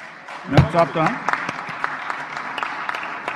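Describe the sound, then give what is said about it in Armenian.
Applause follows a prime minister's election in parliament: a voice speaks at first, then scattered claps continue, thin and irregular, at moderate loudness. “մինչդեռ ապրիլի 17-ին Սերժ Սարգսյանի վարչապետի պաշտոնում ընտրվելուց հետո և շնորհավորում էր և ծափահարում”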